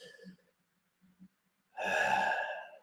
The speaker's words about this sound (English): Let's do it together again. 5 deep breaths, belly breaths.